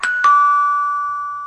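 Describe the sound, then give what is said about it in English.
A doorbell chime plays a two-note ding-dong, a bright higher tone followed by a lower one that rings on and slowly fades, with no talk. “A doorbell advert.”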